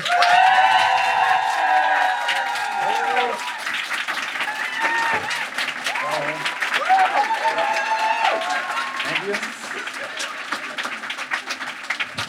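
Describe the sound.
Live audience applause and cheering at a show in Munich, a dense, sustained wash of clapping with shouts and whoops that stays loud through the whole clip and eases slightly toward the end.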